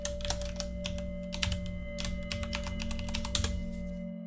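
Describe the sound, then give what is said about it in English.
Rapid typing on a computer keyboard produces a steady stream of light clicks and key taps, with a few louder strokes. A constant low hum runs underneath, and no voices are heard. “1 second, I'll type it out for you.”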